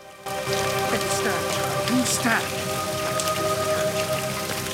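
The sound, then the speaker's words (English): Rain falls steadily as a reverend climbs out of a hansom cab, a dense, even hiss of drops that starts abruptly and holds at a constant level to the end. “A reverend climbs out of the cab into the rain.”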